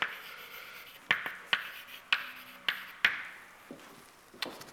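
Writing on a board during a physics lecture: a faint series of sharp taps and short scratchy strokes, spaced irregularly, with no talk.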